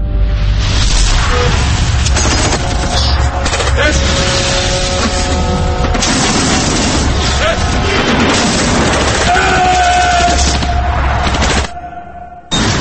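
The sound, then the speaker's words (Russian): Tank cannon fire in a war-film battle scene, with dense, loud booming and crashing gunfire that runs almost without break before cutting off near the end. Voices are mixed in. “И звук выстрела. Звук, падающий от стерильной снарядной гильзы.”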